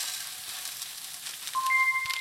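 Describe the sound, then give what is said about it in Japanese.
Onions fry in a pan with a little salt as pressed barley is added, giving a soft, steady sizzle throughout. “ここに軽く塩をして炒めていてください。玉ねぎがしんなりしたら押し麦を入れていきます。”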